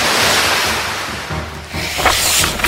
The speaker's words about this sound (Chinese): 张峰听到流水声，他见到神社周围开始被水灌入